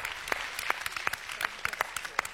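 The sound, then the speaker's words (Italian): Audience applause in a television talent show studio, faint and fairly even, with a few sharper claps standing out from a steady patter. “facciamo un bel applauso a Camilla”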